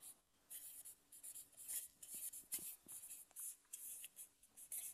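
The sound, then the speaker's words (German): Faint scratching of a pen writing a name, a quick series of short strokes in an uneven rhythm with small gaps between bursts. “Ich schreibe mal Frau Manoach.”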